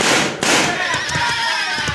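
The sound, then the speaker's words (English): Two sharp six-gun shots crack out one after another, followed by a ringing metallic whine and a few lighter knocks as the bullets strike a weather vane atop a church. “Watch me make a spin from the bullets of this six gun.”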